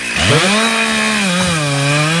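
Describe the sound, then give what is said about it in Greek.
A grass trimmer runs outdoors: its small engine revs up quickly and then holds a steady, buzzing, high whine, loud and continuous throughout. “Χορτοκοπτικό μου φαίνεται.”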